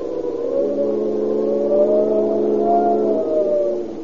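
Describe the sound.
A car engine accelerates hard during a getaway from pursuers, holding a loud, droning whine for about three seconds before it drops away.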